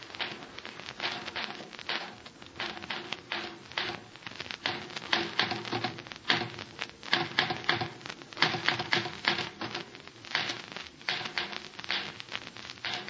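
Rapid typewriter keystrokes clatter in a dense, steady stream of many sharp clicks, with no voices.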